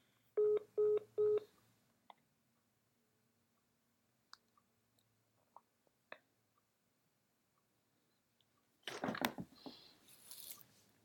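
Three short telephone keypad tones sound in quick succession as a call is dialed. Scattered faint clicks follow through a quiet stretch, then a louder burst of noisy rustling comes near the end.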